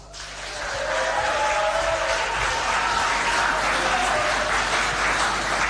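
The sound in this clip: Audience applause greeting a guest on a talk show: a dense, steady wash of clapping that swells over the first second and then holds loud and even to the end, with no voices.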